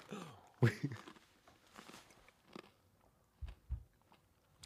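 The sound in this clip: Chewing on a mouthful of sour cereal, heard as a few irregular, crunchy bites and munches with quiet gaps between them.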